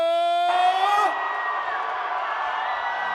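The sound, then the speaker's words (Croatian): A large concert-hall crowd screams and roars for a singer, a loud, sustained wash of cheering. It follows a brief, held shout from a single voice at the start. “Da vas čujemo, najveći vrisak za našeg kralja”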